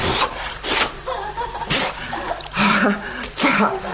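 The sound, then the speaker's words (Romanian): Water splashing as someone washes their face, a few separate wet bursts of splashing and rubbing with short quieter gaps between them, fairly loud and with no talk. “Ce faci? Nu vezi? Uite, mă spăl pe față.”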